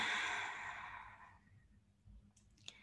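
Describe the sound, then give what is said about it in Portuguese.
A slow, deep exhale during a guided breathing exercise makes a soft, airy rush that fades away over about a second and a half. Near silence and a faint click follow. “Mais uma vez, inspira profundamente e expira.”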